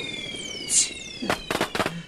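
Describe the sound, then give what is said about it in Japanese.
Rocket fireworks go off, with high whistling tones sliding downward and a short hiss, then a quick run of several sharp cracks and pops. “てめえ、ロケット花火なんて避けられるか。”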